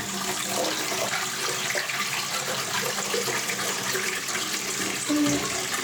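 A toilet being flushed: a continuous rushing, gurgling wash of water that runs steadily for several seconds at moderate level, with no talk.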